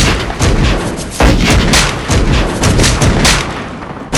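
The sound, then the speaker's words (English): Musket volley sound effect of a line of musketeers firing at point-blank range: a loud, sustained burst of many overlapping gunshot cracks lasting about four seconds, with a fresh blast right at the end. “That officer gave the order to fire like this. Fire! And they fired.”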